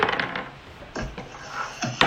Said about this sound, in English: So roll for initiative.